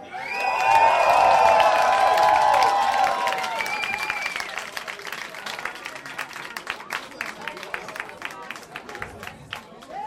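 Studio audience at a TV show taping opens with loud cheering and shouting, then settles into a dense, steady round of clapping that gradually thins and quiets.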